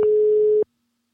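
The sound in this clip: A telephone ringback tone as an outgoing call is placed: one steady, mid-pitched tone lasting just over half a second, then cutting off into silence.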